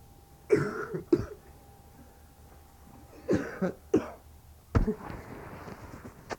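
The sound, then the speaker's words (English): A person coughs in a few short, harsh bursts, some coming in quick pairs. Quiet gaps separate the bursts, and no talk is heard. “You have to cough? Yeah.”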